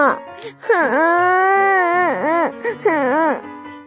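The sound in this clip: A child crying and wailing: loud, drawn-out tonal wails with wavering pitch, several swooping cries in quick succession that dip and rise, with no words spoken.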